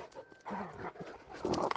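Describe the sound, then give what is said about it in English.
Dogs fighting in Judea and Samaria, with rough bursts of snarling and growling mixed with panting and scuffling. The sounds are brief and fairly faint, with no voices. “These are my dogs fighting, if you can hear it.”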